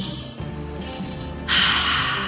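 A deep breath taken together: a hissing intake of air, then a short pause, then a louder, broad rushing exhale that slowly fades. No talk is heard.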